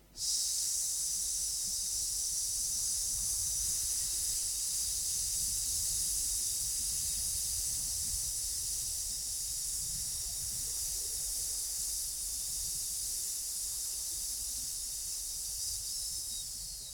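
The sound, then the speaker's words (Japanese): A long, steady hissing breath is forced out during an abdominal breathing exercise, faint and sustained with a slight rough flutter underneath. “はい、じゃあもう一回して吐きます。”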